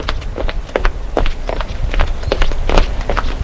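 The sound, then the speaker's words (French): Footsteps of a person breaking into a run on a street: many quick, irregular thuds and scuffs, fairly loud and without voices. “Vite, il se met à courir.”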